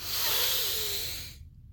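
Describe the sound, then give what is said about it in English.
A deep breath drawn in through the nose during a guided breathing exercise, heard as a steady, hissing rush of air that lasts just over a second and then stops abruptly into silence. “take a couple of deep breaths with me. On the count of 3, breathe deep into your belly and exhale out of your mouth.”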